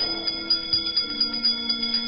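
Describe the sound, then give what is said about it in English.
A bell rings in a spooky séance summoning spirits: many quick, evenly spaced strokes in a steady rhythm over a droning background, fairly faint throughout. “Wizards and witches, wherever you dwell, give us a hint by ringing a bell.”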